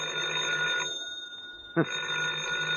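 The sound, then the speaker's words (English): A telephone rings in two bursts of a steady, bright electric bell tone separated by a short pause. A brief sharp knock comes just before the second burst. “Oh, the phone again. You get to your feet, walk painfully across the room to the phone”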